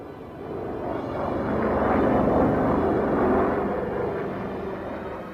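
An airplane engine drones in flight over the ocean after leaving a polar station, the aircraft icing up. The broad, steady roar swells through the middle and eases slightly at the end, with no voices.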